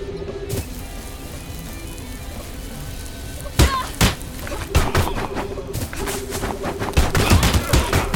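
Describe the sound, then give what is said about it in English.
Springfield Armory 1911 pistol gunfire in a video game: after a quieter stretch of steady game noise, many sharp, punchy shots crack out in irregular bursts. “Springfield Armory 1911. 8 bullets remaining with 20 cartridges in reserve.”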